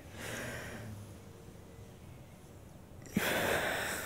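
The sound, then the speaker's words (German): A person draws in a long, deep breath, a breathy rush of air that then drops to near quiet while the breath is held. “Nimm mal so tief Luft, wie du kannst. 1, 2, 3.”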